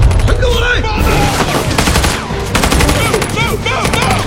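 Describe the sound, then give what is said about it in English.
Gunfire rakes soldiers carrying bazookas, dense and loud automatic bursts with sharp cracks filling the whole stretch without pause. “Rick and Alex pop out from cover and shoot the bazooka soldiers, whose weapons explode.”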